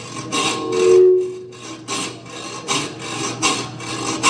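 Scraping heard as many quick, rough rasping strokes in an uneven rhythm, loud and alone, like a file or scraper working a surface.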